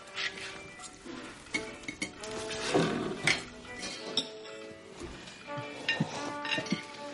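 Dishes and cutlery clink faintly as a mother serves a meal and sits down at the table. Scattered light chinks of plates and silverware sound over a quiet background.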